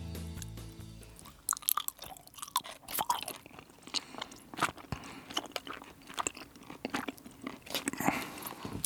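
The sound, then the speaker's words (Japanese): Soft gummy candy being chewed up close: a steady, fairly quiet run of many sticky, wet squelches and small crunchy clicks, with no talk. “あー本当だ、グミそんなに音がするの、 いやなんか意外とするのかなと思って”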